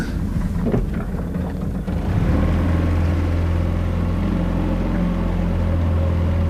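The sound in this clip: A small boat's motor is given a little throttle while landing at a shore. A brief rumbling start gives way to a steady, loud, low droning hum that holds evenly to the end.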